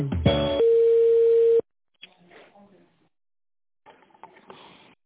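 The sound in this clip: Telephone line tone as a call is transferred to a specialist: a short, chord-like burst, then a steady single tone lasting about a second. Faint, broken sounds follow after a brief silence.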